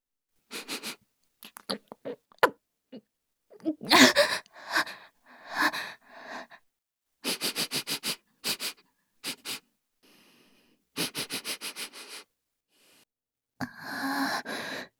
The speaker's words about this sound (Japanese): 失礼して、また、匂いを嗅がせていただきますね。